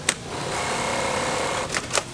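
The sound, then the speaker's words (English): Sewing machines stitching camouflage cloth helmet covers in a stiflingly hot factory: a steady mechanical whir with a few sharp clicks at the start and end. “About 30 women are bent over sewing machines, stitching together the camouflage cloth helmet covers.”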